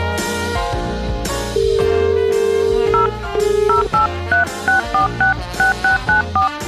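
Touch-tone telephone dialing: a steady tone gives way to a quick run of short, bright keypad beeps, evenly paced, over a continuous musical backing.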